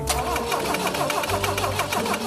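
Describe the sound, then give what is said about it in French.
A BMW car engine cranks without catching after its ignition has been adjusted: a loud, continuous, rhythmic churning of the starter turning the engine over, with no sign of it firing into a steady run. “il faut absolument que la BM démarre au quart de tour. Sauf qu'à CarSOS, tout ne marche pas toujours comme prévu. T'as réglé l'allumage? Ouais. Essaie encore?”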